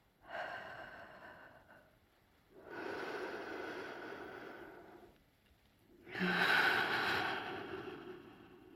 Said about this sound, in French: Et nous expirons ensemble, tous les deux, par la bouche, en quatre temps.